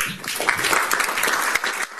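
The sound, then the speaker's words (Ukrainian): Ukrainian and Polish audience members applaud at a gathering in Warsaw, a thick wash of many hands clapping that stays fairly even before easing slightly near the end. “Завершила під оплески присутніх українців і поляків Богоміла Бердиховська.”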